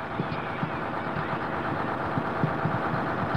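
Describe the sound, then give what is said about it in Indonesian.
A bus engine runs as the bus departs with children aboard for a zoo. It gives a steady, moderately loud throbbing rumble with soft, regular knocking pulses and no clear change in pitch. “Setelah semua anak masuk, bus pun berangkat menuju kebun binatang.”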